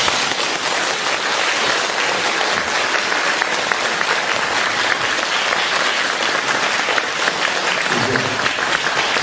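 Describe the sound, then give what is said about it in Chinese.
Applause from a small audience after a talk, dense and continuous like a rain-like patter of many hands, sounding fuller than the crowd's size. “你看看呢，人不多，但是我听这个掌声就是几千人的掌声。”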